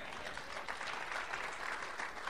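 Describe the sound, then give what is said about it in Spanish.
Faint audience applause during a church sermon, a soft, even hiss of many hands clapping that holds steady throughout without speech. “¿Cuántos dan un aplauso, Señor?”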